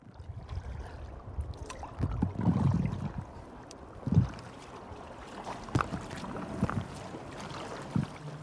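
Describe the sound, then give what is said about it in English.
A kayak paddles on a river, heading downstream toward a bridge, with a steady wash of water and wind broken by a few soft paddle splashes and knocks; no voices. “I'm in my kayak right now and we're pointing downstream towards Kew Bridge. We've paddled for about 15-20 minutes upstream towards Richmond.”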